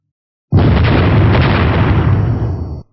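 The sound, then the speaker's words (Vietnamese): A loud explosive roar as fiery serpents crash into glowing rings of sword light in a fantasy battle. It bursts in abruptly, holds as a dense, rumbling blast for about two seconds, then cuts off. “Một loạt tiếng nổ lớn vang lên.”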